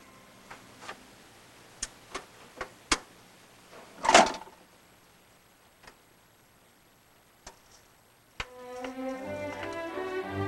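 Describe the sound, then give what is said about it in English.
Mechanical clicking and a soft clunk of a record player changing records: a few faint scattered ticks, then one heavier knock, more sparse clicks, and music starting up near the end. “She looks up as the record player changes records.”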